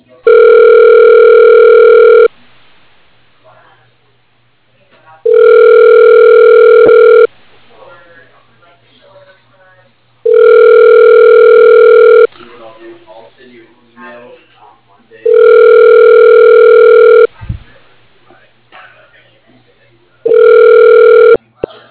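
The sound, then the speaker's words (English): Ringback tone of a telephone call being placed: five loud, steady buzzing rings of about two seconds each at regular intervals, with quiet talk in the gaps between them. “Okay, dialing.”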